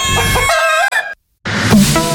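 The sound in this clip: A rooster crows in a radio advertisement jingle for a restaurant. The crow is loud and bright with rich harmonics, and it breaks off into a short silence. Another loud, noisy burst follows.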